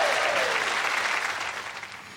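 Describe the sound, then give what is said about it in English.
Applause from an audience at a live music show: a dense, steady wash of clapping that gradually fades over about two seconds. “So give him a big round of applause. Thank you, Daniel.”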